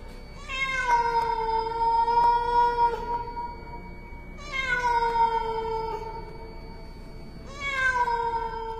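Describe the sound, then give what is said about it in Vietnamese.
A cat wails mournfully in three long, drawn-out meows. Each cry is loud and tonal, sliding slightly in pitch, and separated by short pauses with no voices. “Thế nhưng bất chợt, con mèo bắt đầu cất lên tiếng kêu não nùng.”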